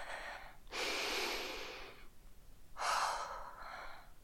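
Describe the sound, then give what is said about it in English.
Slow, deep breathing taken to calm down during a moment of panic: two long, airy breaths, the first long and steady, the second shorter and fuller, heard alone with no talk. “I can't panic now. Deep breaths.”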